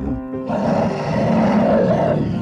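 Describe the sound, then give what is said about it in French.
A bear roars in the Canadian far north: a short, low, tonal growl swells into a loud, rough, sustained roar that holds steady for about two seconds, with no voices. “Un ours la lui avait arrachée dans le grand nord canadien.”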